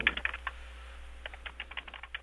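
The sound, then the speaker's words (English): Someone types on a computer keyboard, producing many quick, faint key clicks in an uneven rhythm with no talk. “Right, sorry, I'm just typing all this down. I don't have a tape recorder at the moment, so I'm just having to type it all out.”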